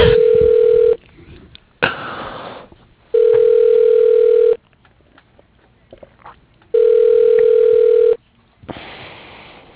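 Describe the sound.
An outgoing call to a deck and railing company rings on the line. A steady electronic ringback tone sounds in three bursts separated by long pauses, with faint background noise between the rings.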